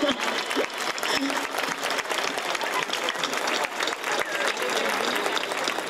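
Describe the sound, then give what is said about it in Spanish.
Audience applause: dense, steady clapping from a crowd that holds an even loudness from start to finish. “un aplauso para mi madre, que lo ha hecho muy bien,”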